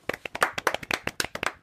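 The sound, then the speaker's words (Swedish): Studio applause from a few pairs of hands: many quick, crisp claps in a brisk, slightly uneven rhythm, fairly soft and with no voices over them. “Studieapplåd. Studieapplåd.”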